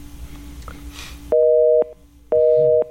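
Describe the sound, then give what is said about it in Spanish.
Busy tone after a phone call is cut off: two steady, evenly spaced half-second beeps of a dual-pitched tone, following a short stretch of line noise and low hum. “Se cortó la llamada. Se cortó la llamada, sí.”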